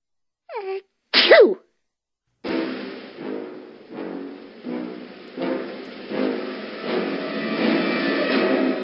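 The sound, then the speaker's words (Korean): A voice acts out a sneeze for Peter the rabbit, a two-part 'ah-choo' burst. After a short pause, a louder pulsing background sound starts and continues to the end. “피터가 그만 재채기를 하면서 아저씨에게 들켰거든요.”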